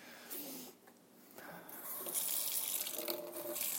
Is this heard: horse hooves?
no

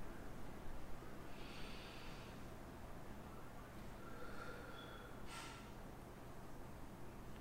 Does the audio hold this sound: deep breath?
yes

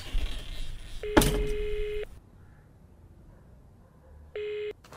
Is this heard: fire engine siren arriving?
no

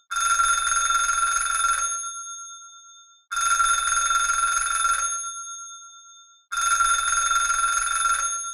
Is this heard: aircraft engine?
no

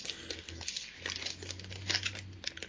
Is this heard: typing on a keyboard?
yes

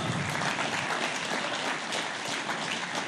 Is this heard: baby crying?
no

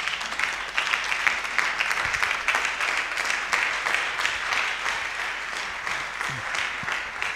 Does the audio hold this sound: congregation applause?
yes

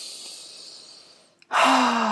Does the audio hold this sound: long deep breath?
yes

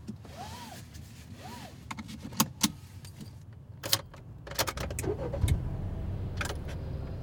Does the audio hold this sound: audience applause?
no

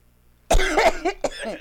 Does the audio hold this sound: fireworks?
no

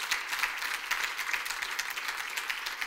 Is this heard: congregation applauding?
yes

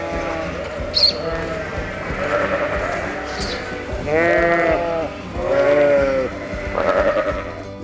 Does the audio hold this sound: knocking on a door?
no

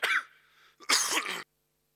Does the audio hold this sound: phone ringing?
no

